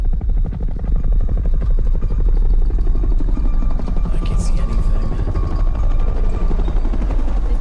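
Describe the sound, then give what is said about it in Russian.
Helicopter rotors thud in a rapid, steady chop from a film scene, loud and unbroken for the whole stretch with a dense low rumble beneath. “Похоже, вертолеты. Да, но наши или их?”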